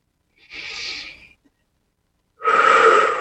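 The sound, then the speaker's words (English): A slow, deep breath: a long airy breath, a moment of silence, then a second breath that is louder and fuller. “Nice deep breath. From your mind to your gut.”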